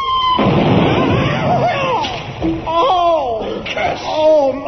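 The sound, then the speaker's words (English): A missile explodes against a large stone wall in a sudden loud burst of roaring noise, followed by wailing, rising and falling voices. “We now go over to Sebastopol wall to hear the arrival of the missile.”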